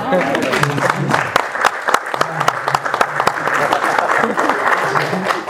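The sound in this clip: A church audience bursts into applause, a dense, steady patter of many hands clapping throughout, and a voice speaks over the clapping.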